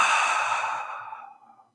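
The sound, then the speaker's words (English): A deep, audible breath: one long, airy exhale that starts strong and fades away over under two seconds, with no talking. “as usual, we take a moment to take a deep breath. So let's begin. In, out.”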